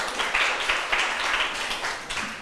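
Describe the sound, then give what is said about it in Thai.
Students in a classroom clap for themselves after finishing a group task. The clapping is dense and fairly steady, with a few louder swells across its short run. “ตอนนี้เสร็จแล้วเรียบร้อยนะคะนักเรียนปรบมือให้ตัวเองหน่อย”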